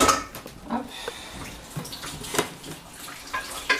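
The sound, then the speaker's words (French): Water runs and splashes as the rest of a dish is rinsed, a faint, steady rush broken by small irregular splashes and trickles. “on va rincer un peu le reste”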